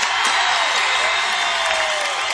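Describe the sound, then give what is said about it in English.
Loud audience cheering and whooping to vote on a song choice by applause meter, a dense, sustained roar of voices and shouts that stays at a high, even level. “Okay, let's do the applause meter here.”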